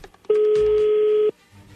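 A single steady electronic telephone tone, about one second long, sounds as a call is being placed; it is loud and even and stops cleanly, with no voices over it.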